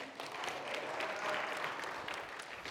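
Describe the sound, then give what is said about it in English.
Applause from a church audience welcoming a speaker to the front during a service: a steady patter of many clapping hands at moderate volume, lasting a few seconds with no talk. “So let's give Sarah a warm welcome.”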